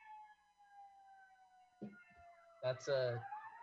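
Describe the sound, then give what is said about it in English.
A siren passes outside in Chicago, a steady wailing tone that glides slowly lower and then fades, with a short burst of voice near the end. “That's a siren. I'll wait for it to pass.”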